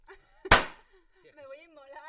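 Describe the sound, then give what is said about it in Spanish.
A firecracker dropped on the floor indoors goes off in a single sharp, loud bang that decays quickly, with people talking before and after. “Creo que estoy empezando a entender la movida de los petardos. Me está empezando a gustar. ¿Quieres tirar uno, Nacho? Vale, ¿podemos no tirar petardos dentro?”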